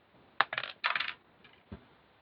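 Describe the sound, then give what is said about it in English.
A six-sided die rolling on a hard surface: a sharp knock and bursts of quick rattling clatter, then a couple of fainter taps as it settles, with no voices. “All right, roll a d6 with me”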